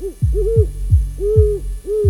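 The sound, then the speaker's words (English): Deep, soft hooting from a great horned owl: a few low, mellow hoots in short, evenly spaced phrases, heard alone without voices. “like great horned owls”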